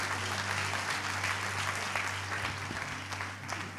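Audience applause at a high school gathering as people walk off stage: steady, continuous clapping from a crowd, even in level throughout under a low hum.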